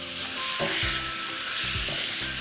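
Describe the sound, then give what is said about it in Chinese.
Spring bamboo shoots stir-fried over high heat in sizzling rendered pork oil in a wok, with light soy sauce added. A loud, steady hiss runs throughout, and a few low scraping stirring strokes sound through it. No one speaks. “接下来我们要放调料，首先生抽开大火，把这个春笋倒进去”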